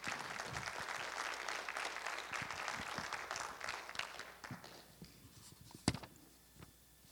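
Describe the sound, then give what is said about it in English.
Applause from an audience welcoming a speaker to lead an evening devotion, faint and steady at first, then thinning out to a few scattered claps before it stops. “If you would, please put your hands together as we welcome Sister Patricia Smith, who's going to bring forth the devotion.”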